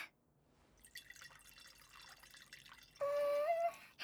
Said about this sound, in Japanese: って注いでくれるの？